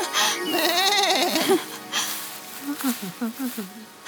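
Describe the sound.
A young goat bleats in a fairy tale scene, first a long wavering call, then a quick string of short bleats, with voices also present.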